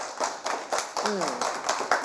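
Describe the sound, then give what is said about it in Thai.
Children clapping for a friend during a classroom game: a fairly regular run of soft claps, moderately loud, with a woman talking over them. “ถูกถูกต้องไหมคะแค่นี้เองปรบมือให้เพื่อนด้วย”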